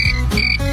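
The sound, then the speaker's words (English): A cricket sound effect gives a brief, loud burst of buzzy, trilling chirps lasting under a second. “Where's the cricket sound effect? Okay. I loaded it up. We got to play it.”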